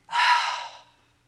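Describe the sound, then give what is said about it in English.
A deep breath, one airy, hissing rush of air that swells quickly and then fades over under a second, heard alone with no talk. “Take a deep breath. A deep breath in and a big exhale.”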